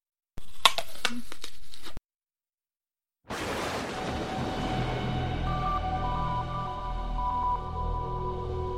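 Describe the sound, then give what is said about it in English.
Sound effect of a rip in space opening: a short stretch of crackling clicks, a sudden silence, then a loud whooshing roar bursts in and holds steady over a deep rumble with faint ringing tones. “What's going on? Is that a rip in space?”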